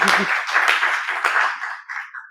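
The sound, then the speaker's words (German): Applause from a small group welcoming a guest to a recorded conversation, with a few sharp claps standing out early before the clapping thins and fades away toward the end. “Also ein Applaus wert.”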